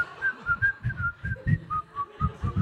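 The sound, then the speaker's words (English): A person whistles a wordless tune, a faint melody of many short notes that step up and down in pitch, over soft low thumping in the background. “that one, just no words, just like whistling”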